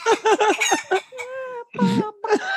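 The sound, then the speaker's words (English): Chicken clucking: a quick run of short, choppy clucks, then a drawn-out, crow-like call and a few more clucking bursts, all fairly loud and with no speech over them. “It's like, this is my new gibberish jukebox. Like, it's just going to be chicken.”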